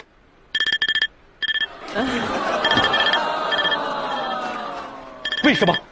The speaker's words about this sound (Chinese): 为什么我感觉他一闭眼闹铃就响了？